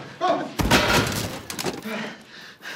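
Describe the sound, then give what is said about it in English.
A single sharp bang from a tiny handgun cuts in among agitated voices, a short, loud crack followed by continued talking. “Harry's hands down his trousers as he fires his gun at Aurelio, killing him.”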